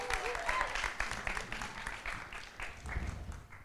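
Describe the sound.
Audience applause welcoming a speaker as he gets up at a live audience event, a lively spatter of clapping that stays fairly loud throughout and tapers slightly toward the end, with voices talking over it.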